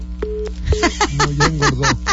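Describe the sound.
A flat, steady telephone line tone left on a call-in line after the caller hung up, briefly heard alone and then sounding beneath continuous talk, with a low hum throughout.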